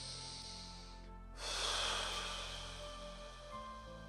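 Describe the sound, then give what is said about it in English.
A deep breath during a guided meditation: one airy rush about a second long rises over steady, faint background tones and then eases off. “keep your awareness under your feet and taking a deep breath.”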